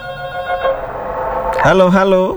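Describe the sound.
A telephone line rings while a call is being connected, giving sustained electronic tones that hold steady before shifting to a brighter, wavering tone near the end.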